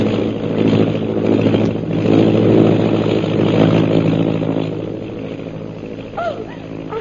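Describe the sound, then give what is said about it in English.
Engine drone of a large black airplane diving low overhead, a loud, steady, harmonic roar that swells slightly midway and then eases off. “Is that big black plane over there also under your orders? No. That's a native plane, Miss Trent. But... Colonel, look. It's headed directly for us.”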